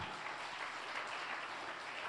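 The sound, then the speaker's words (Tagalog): Congregation applause at a church service, raised in praise of the Lord: a steady, faint wash of many hands clapping with no clear breaks for about two seconds. “Okay, palakpakan natin ang Panginoon.”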